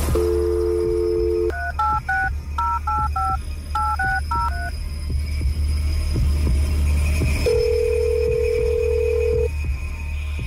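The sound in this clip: A telephone number being dialed for a call: a steady dial tone, then about ten touch-tone beeps in quick groups, a pause, and a single long ringing tone, all over a constant low hum.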